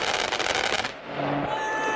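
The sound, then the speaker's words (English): Machine-gun bullets from a strafing aircraft strike the ground in a dense, rapid crackling burst lasting about a second, then give way to a steady rushing noise carrying a faint held tone, with no voices. “That's real warfare. And you can hear it. It hits the ground before you even hear the bullets go.”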